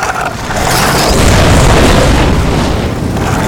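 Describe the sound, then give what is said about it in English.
A fiery burst roars as small creatures spit fire, a loud, broad whooshing blast that swells over the first second and stays strong, easing only slightly toward the end. “When they saw that Arlen had woven an effective net, they spat fire at him.”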